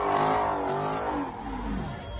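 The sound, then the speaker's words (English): Cars doing donuts around a burning gasoline ring in a street intersection give a loud, sustained engine roar that wavers in pitch, with a thick rumbling undertone throughout. “There's a big, giant ring of gasoline burning in the middle of the intersection. People fucking doing donuts, people standing in it.”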